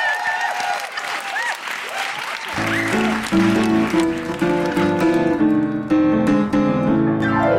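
Applause from an audience for a performer at a comedy show, a dense, steady patter of many hands clapping that grows louder partway through, with a tonal layer joining in.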